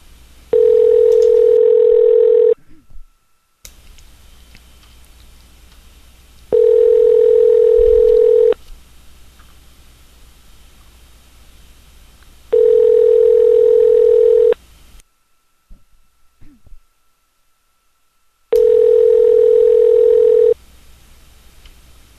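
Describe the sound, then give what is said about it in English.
Telephone ringback tone from a call to a classic rock radio station, four steady buzzing rings of about two seconds each, separated by long quiet gaps as the call goes unanswered. “But they're jerks and they don't answer the phone at this classic rock station. Maybe we'll be the 9th caller by accident and win something.”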